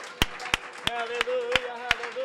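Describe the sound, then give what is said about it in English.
A church audience claps hands in worship, with seven sharp, evenly spaced claps in a steady beat while voices sing along underneath. “Clap your hands to the Lord before you're seated.”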